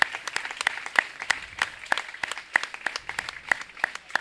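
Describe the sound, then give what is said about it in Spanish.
An audience at a cultural event applauds, a thin scattering of sharp hand claps in an uneven rhythm, moderately quiet and without voices. “Sí, un aplauso para Daniel Solano.”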